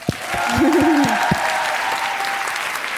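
A crowd breaks into applause and cheering, dense steady clapping that runs throughout, with a brief vocal whoop near the start.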